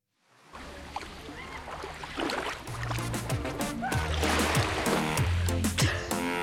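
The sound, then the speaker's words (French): Sea waves wash onto a sandy beach on a hot, sunny day. The broad, hissing surf fades in and swells steadily louder, with a low, soft melody playing underneath. “Le sable est chaud, le ciel est bleu et la mer chante doucement.”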